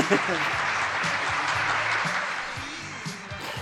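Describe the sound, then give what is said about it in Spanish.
Applause from a studio audience with cheering voices mixed in, a dense wash of clapping that stays loud before easing slightly near the end, while voices call out over it. “Ahí me aplauden.”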